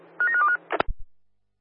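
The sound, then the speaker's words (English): A telephone number being dialed: a quick run of short, bright touch-tone beeps, then a few sharp low clicks that fade out. “Yeah, dialing now.”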